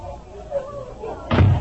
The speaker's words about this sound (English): as Jim Anderson steps through the front door